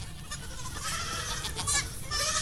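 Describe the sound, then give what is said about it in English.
Goats bleating, heard as a continuous, dense, noisy wash of bleats and rustling with no clear pauses. “These goats are all over. Get out of here, you goats. Let me chase the goats out of here.”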